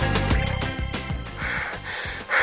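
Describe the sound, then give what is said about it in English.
Heavy, out-of-breath panting after a 1500-metre long-distance training run: a quick series of loud, gasping breaths in a steady rhythm. “you are totally out of breath.”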